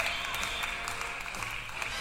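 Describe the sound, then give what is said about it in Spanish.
Applause for a woman's birthday: a faint, steady patter of clapping from a group, continuous through the short clip with no clear break. “Un aplauso para Norma Blas.”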